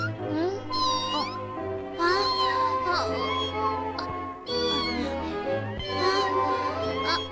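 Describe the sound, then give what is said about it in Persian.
A kitten meows over and over: a loud, continuous run of high, wavering cries with rising and falling pitch. “آخی بچه گربه.”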